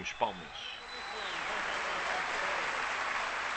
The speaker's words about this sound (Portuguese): enquanto ouvimos palmas para o B.B. King e Rui Veloso. Isto foi numa altura, isto foi em 98 que o B.B. King teve cá e deu um concerto à beira do Rui Veloso.